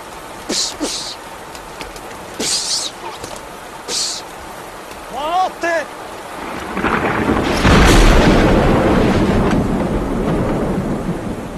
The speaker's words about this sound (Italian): Fulminato, dottore, fulminato. La saetta l'aveva attraversato completamente.